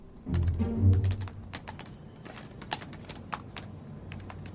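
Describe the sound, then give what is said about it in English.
Fast, forceful typing on a laptop keyboard aboard a plane: many sharp, uneven key clicks follow a heavy low rumble at the start. “You mad at your computer? I type with purpose.”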